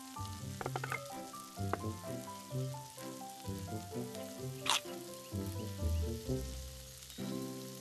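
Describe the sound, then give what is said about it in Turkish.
Köfte meatballs fry in a pan with a faint, steady sizzle under louder background music, and one brief sharper crackle stands out midway. “Köftelerin bir yüzü pişti şefim. Çeviriyorum.”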